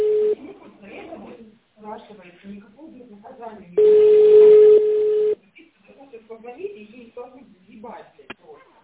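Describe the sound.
A telephone ringback tone plays as a call is placed to a company, one loud, steady, mid-pitched tone lasting about a second and a half, with talk before and after it.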